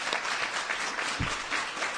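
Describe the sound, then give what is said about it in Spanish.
Audience applause greeting a guest's arrival, a dense, even wash of many clapping hands that holds steady throughout at a fairly low level. “Vamos a dar un aplauso a la llegada de Adela.”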